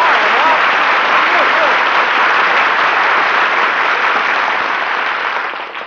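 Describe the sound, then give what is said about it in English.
Loud, dense applause from a comedy show audience greeting a performer's entrance, a thick, unbroken roar of clapping that stays full and even before tapering off at the very end. “Gee, was all that applause for me?”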